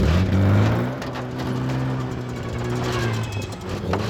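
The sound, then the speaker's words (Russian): A car drives off around a hut into a forest, its engine giving a steady, low droning hum that stays fairly even in loudness with slight shifts in pitch. “Обогнув хижину, машина скрывается в лесу.”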